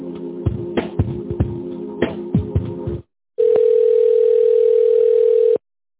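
A telephone line plays patterned tones with clicks while a call is transferred, then falls briefly silent before a steady, continuous tone holds for about two seconds.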